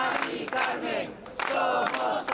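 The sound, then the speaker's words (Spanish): Applause and crowd voices rising together at a memorial gathering marked by grief and anger. The clapping and shouting is fairly faint and comes in a few surges that swell and ease. “Aplausos y una sola voz.”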